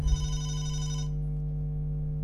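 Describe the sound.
A telephone rings with a steady electronic tone, a bright buzzing ring that stops abruptly about a second in, leaving only a low hum. No voices are heard.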